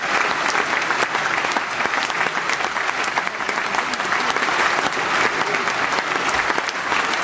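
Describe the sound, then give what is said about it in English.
Studio audience applause for a show's cast: steady, dense clapping from many hands, loud and even from start to finish without a break. “Great show, gang. Audience, give them a nice big hand.”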